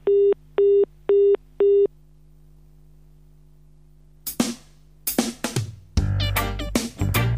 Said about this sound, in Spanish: Después de la señal, deje su mensaje.